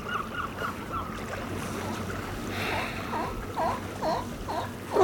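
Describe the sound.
Seashore ambience at tidal flats at low tide: a steady, moderate rushing like wind, with no distinct events.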